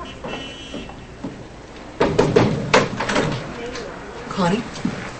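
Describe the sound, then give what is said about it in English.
Knocking on an office door, then the door opening: a few light taps followed by a louder clatter and rustle, with people talking. “knocks, then opens the door.”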